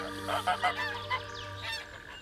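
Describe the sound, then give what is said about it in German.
Flock of geese honking on the way to a meadow, a few loud nasal honks bunched in the first second, then scattered calls trailing off over a steady low background hum. “mit Kürtchen und seiner Gänseschar die Wiese erreicht”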